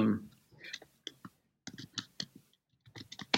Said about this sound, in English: The faster you try and type, the worse it gets.